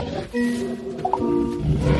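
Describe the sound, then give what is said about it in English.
A lion roaring: a rough, sustained, low roar that runs through the whole clip at a fairly steady level, with a brief higher-pitched sound near its middle. “Was that a lion?”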